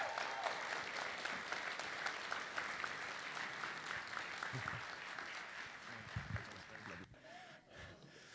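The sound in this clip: Applause from a church audience welcoming a guest minister at the church's 60th birthday: a steady, even wash of clapping that carries on throughout, fairly faint, thinning toward the end.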